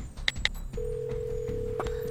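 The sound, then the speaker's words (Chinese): A telephone line tone sounds on an outgoing call. Two short clicks come first, then a steady, moderately loud tone holds unbroken to the end. “我现在给小高打电话，你们可以沟通。”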